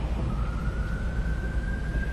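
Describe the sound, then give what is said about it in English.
An emergency vehicle siren sounds as a thin, steady tone that creeps slightly upward in pitch. It stays faint beneath a wash of broad background noise. “And there's our second siren.”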